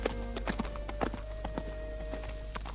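Faint, irregular hoofbeats of a ridden horse clip-clopping over a steady low hum.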